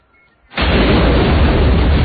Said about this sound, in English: This was so much fun, blowing up this building. I told the guy, you got to make it sure it's big.